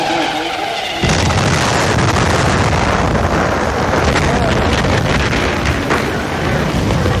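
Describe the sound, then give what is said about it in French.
A Mercedes racing car, number 20, explodes at the pit lane entrance during a motor race: an abrupt, loud blast about a second in, followed by a sustained, heavy, roaring rumble that stays loud to the end. “Qui sait parmi la foule que cette Mercedes numéro 20, pilotée par Levègue, va ici même, à l'entrée de la zone des ravitaillements, exploser et semer la mort.”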